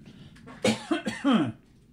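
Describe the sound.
Harsh, throaty coughs, a few of them in quick succession, with a voiced, rasping edge. They are moderately loud and stand alone, with no talking.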